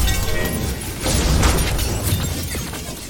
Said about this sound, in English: she shattered a bunch of glass and threw it at us, but Liara blocked it.